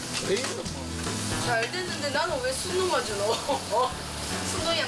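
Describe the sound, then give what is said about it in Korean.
Pork belly (samgyeopsal) sizzles as it cooks, a steady frying hiss running under people talking throughout. “삼겹살이 맛있게 익었습니다.”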